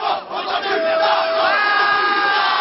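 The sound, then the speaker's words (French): An agitated crowd of about 200 youths shouts insults at a minister's arrival, a dense, continuous roar of raised voices with higher cries rising above it. “Autour, 200 jeunes, un comité d'accueil plutôt agité. Les premiers projectiles fusent avec les insultes.”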